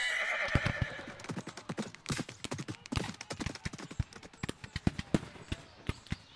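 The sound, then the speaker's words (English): A horse neighs as its rider sets off into battle, then many hoof clops follow in a quick, uneven beat that grows sharper and more spaced near the end. “And with that, Benedict rode into the smoky haze of battle and I never saw him again.”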